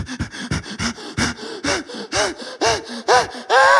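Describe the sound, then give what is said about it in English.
A person's voice imitates heavy, panicked breathing with many quick, loud gasps and pants in an uneven, hurried rhythm. “There have been times where I've been so concerned where I start breathing heavy, like,”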